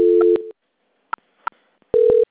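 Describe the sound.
Telephone transfer tones as a bank call is passed to its quality-control department: a steady buzzing tone of about half a second, two brief clicks, then a second short tone.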